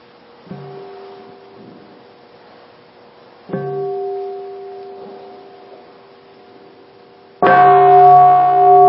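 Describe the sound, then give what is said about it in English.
A meditation bell rings to close a Buddhist practice session, struck three times at spaced intervals. Each strike leaves a long, sustained harmonic ring, and the last is the loudest and richest. “So, I'd like to invite everyone to listen to the sound of the bell to end our session.”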